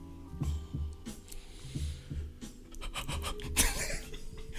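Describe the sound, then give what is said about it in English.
Heavy breathing blown straight into a microphone, a steady series of many low, thumping puffs with breathy hiss, repeating at a regular pace throughout. “I was like, I'm gonna breathe in the mic real heavy and see if he start laughing, and it backfired.”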